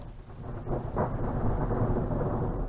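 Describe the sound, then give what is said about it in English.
A thunderstorm at Big Bend National Park, with a steady hiss of rain and a deep, rolling rumble of thunder that swells after the first second and carries on to the end. “thunderstorm at Big Bend”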